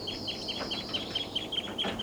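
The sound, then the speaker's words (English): A perched flock of about seven birds calls repeatedly, giving many short, high chirps in a quick, fairly regular series that stay faint over a low, steady hiss. “and they're calling a lot. Seven birds and they're taking off.”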